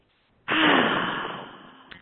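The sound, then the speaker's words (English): A deep breath is drawn in audibly, a loud, airy rush that starts abruptly and slowly fades over about a second and a half. A brief new breath begins right at the end. “taking a deep breath.”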